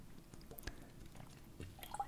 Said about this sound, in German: ich habe äh, mal gerade einen Schluck getrunken